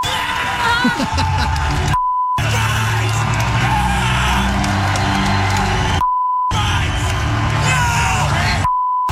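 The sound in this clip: Censor bleeps from a bleep button, three short, steady high tones that cut abruptly into loud yelling and excited, celebrating voices.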